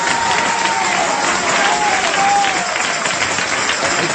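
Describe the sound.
A church audience claps in dense, steady applause that runs for several seconds without a break, with a voice faintly audible above it.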